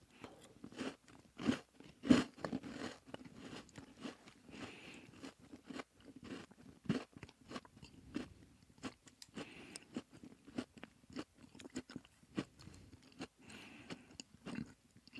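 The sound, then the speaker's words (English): Candy being chewed, with many irregular moist crunches and clicks at a low level and no talk. “sorry about all the chewing noise for those of you guys who are listening, but I was reading somebody in the comments too”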